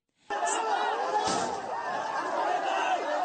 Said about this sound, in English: Well, what you're hearing there is chaos in Sri Lanka after the country's president fled the country hours before he was expected to resign.